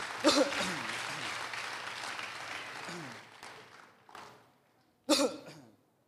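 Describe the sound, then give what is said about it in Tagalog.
A church audience applauds for the Lord with a burst of many hands clapping that gradually fades. Scattered coughs and throat clearing follow, ending with one sharp, louder cough. “Sige po, palakpakan naman po natin si Lord yan.”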